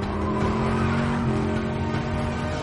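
Engine roar and tire squeal from a car in an action-film street chase as it mounts a curb and drives on two wheels; a dense, loud, continuous rush of motor noise with no pause.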